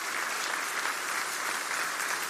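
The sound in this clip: A church audience applauds in dense, continuous clapping that holds an even, fairly loud level throughout, with no pauses.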